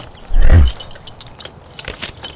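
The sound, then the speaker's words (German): A bear bites into an apple with one loud, low crunch, followed by a few faint, scattered chewing clicks. “du darfst dem Bär noch einen Apfel zum Dank geben.”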